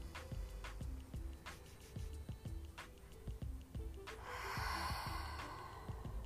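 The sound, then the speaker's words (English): A faint, deep breath, heard as a soft, airy rush of air in the last seconds, over a quiet, regularly pulsing background. “I'm gonna just take a deep breath with you. Just breathe in everything I just said.”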